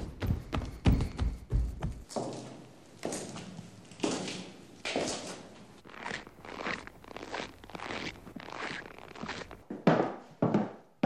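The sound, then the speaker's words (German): Shoe soles running down wooden stairs make quick, irregular thumps and knocking taps with some scraping, the pace shifting between hurried and lighter, bouncier steps. “Füße, die Treppen hinunterlaufen. Ein müder Heimkehrer oder ein freudig tänzelnder Tritt. Wir hören unterschiedliche Materialien, die Schallwellen verursachen. Schuhsohlen auf Holz.”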